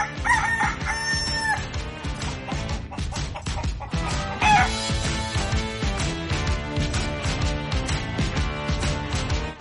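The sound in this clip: A rooster crowing over loud, rhythmic music: one long crow near the start, then a shorter call midway, both riding on a driving beat.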